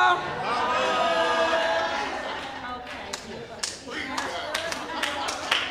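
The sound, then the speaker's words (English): A church audience hollers and claps. Loud, sustained shouting voices come first, then scattered sharp claps ring out amid the crowd noise. “Open your mouth. And holler.”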